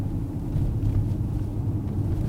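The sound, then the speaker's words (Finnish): A car driving on Åland from Mariehamn toward Eckerö on a sunny day produces a steady low engine and road rumble, even in level, with no voices. “Lähdemme Monikan kanssa Maarianhaminasta autolla kohti Ahvenanmaan länsiosaa, Eckeröä”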